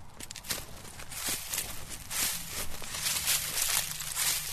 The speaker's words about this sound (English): And the leaves here have a different sound than Croatian leaves, somehow.